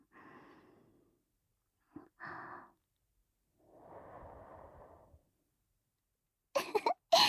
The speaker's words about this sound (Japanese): ごめんね。ふーってしたら、まつげピロピロってなるかなって思って。